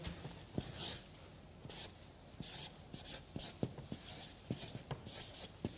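Someone writes and draws a cross, making faint scratching strokes in an irregular series of short rasps with quiet pauses between them. No one speaks.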